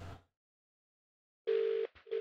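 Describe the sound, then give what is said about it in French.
A telephone ringback tone after dialing a business's number: a steady, buzzing mid-pitched tone lasting under half a second, then silence and the start of a shorter repeat, heard alone. “j'ai composé le numéro, ça sonne.”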